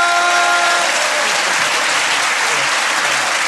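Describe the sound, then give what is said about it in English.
A live comedy audience gives a stand-up comedian a big round of applause. The clapping is loud, even and unbroken from start to end, with a few faint cheers at the beginning. “Ladies and gentlemen, give a massive round of applause.”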